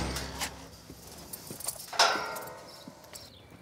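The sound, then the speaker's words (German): Restless zebras move about inside their enclosure, with scattered hoof clops and knocks against a low steady background and a sharper metallic rattle near the middle. “weil die Zebras auch noch drin sind. Das fiel mir gerade auf, dass die da ziemlich unruhig sind.”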